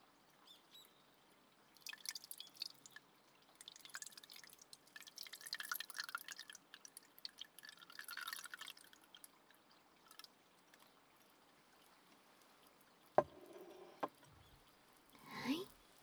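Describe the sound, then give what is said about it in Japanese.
Steeped black tea poured from a pot into a cup, a soft, faint liquid trickle in a few uneven bursts, followed by a few brief drips near the end. “ここで先ほどポットで蒸らしていたお紅茶をカップに注いで、”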